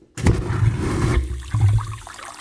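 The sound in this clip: A vacuum toilet flushes at the push of its button, at a city water and wastewater utility. A sudden loud, rushing whoosh lasts about a second, then a second strong surge of suction noise follows, with no voices.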